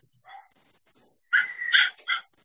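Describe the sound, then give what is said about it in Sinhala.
A dog barks faintly in quiet surroundings: a few soft yips, then a short run of louder, higher-pitched barks. “උදාහරණ දැන් ඒ බල්ලා පුරනවා කියන එක දැන් ඇහුණාට”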